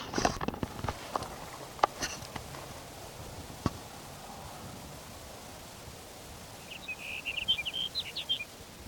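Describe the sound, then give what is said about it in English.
A sage sparrow sings a short, high, jumbled phrase of tinkling notes near the end, faint over quiet background hiss, after a few scattered soft clicks. “Here's sage sparrow number two for the morning.”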